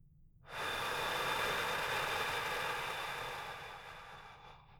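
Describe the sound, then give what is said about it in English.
A deep, slow breath taken during a guided relaxation exercise: one long airy rush that starts abruptly, holds steady, then gradually fades, with no talk over it. “Take a few deep breaths in with me. And out.”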